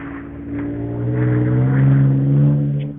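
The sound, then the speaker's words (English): Engine of a souped-up, lifted Toyota Tacoma pickup truck: a low, rumbling, continuous drone that swells slightly in loudness through the middle, with no voices. “That was a Tacoma. A souped-up Tacoma.”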